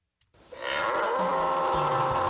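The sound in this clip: A bull bellows in an advert for a bull riding event. One loud, sustained moo begins after a brief quiet moment and holds steady to the end, with no talk over it.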